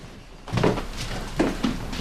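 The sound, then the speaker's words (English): A landlord opening the door to a rented room in a lodging house; a few dull knocks and thuds of the door and handle, moderately quiet and spaced apart. “The landlord opens the door”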